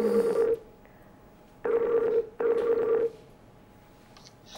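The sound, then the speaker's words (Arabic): Telephone tones on an outgoing call: three separate bursts of a steady electronic ringing tone, each about half a second long, separated by short gaps. No voices are heard. “لكن عم بدق التليفون وعم نسمع صوت التليفون”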